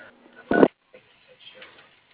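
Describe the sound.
A single short telephone keypad tone dials an extension, loud and clear against an otherwise faint, quiet background.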